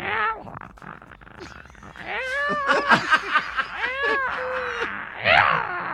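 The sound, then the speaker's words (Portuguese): A human voice imitating a tomcat's yowling mating call to a female in heat: a series of drawn-out, wavering meows that swoop up and down in pitch, loud and nasal, with a shorter cry at the start and end. “é um gato que ele só mia quando ele está, quando ele vai pegar a gata, no cio. Ele só vai dar miado.”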